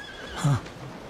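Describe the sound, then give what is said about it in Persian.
A horse lets out a single short whinny, a brief half-second cry rising out of a quiet background. “اسب.”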